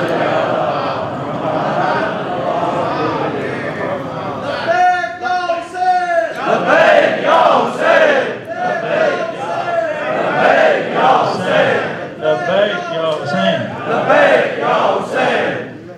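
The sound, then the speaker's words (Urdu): At a religious gathering, a crowd chants a slogan in praise of Husain. A man talks for a few seconds, then loud group shouting bursts out in repeated rhythmic waves. “نعرہ لگا دیجیے.”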